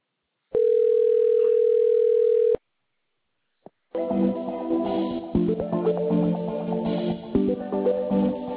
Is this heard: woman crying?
no